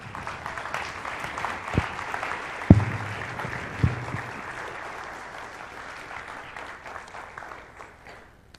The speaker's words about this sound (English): So grab a brick and grab a devotional book. We have it each bookmarked to today's passage, which I think is brilliant. So go through and grab each of those and have a seat. Let's give them a hand.